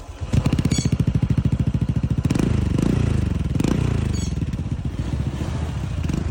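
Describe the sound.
A motorcycle fitted with an aftermarket exhaust, slightly louder than stock but within legal limits, revs its engine. A loud, continuous throaty rumble pulses at first, then swells and falls in a few revs.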